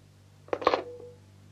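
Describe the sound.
A telephone handset is hung up: a brief, faint clunk with a short rattle over a low steady hum.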